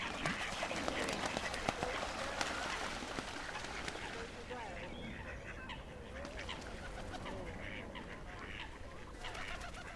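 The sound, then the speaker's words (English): Peeping and clucking of a small duckling and other fowl, many short high chirps running throughout, with people talking over them. “Oh, a little duckling coming.”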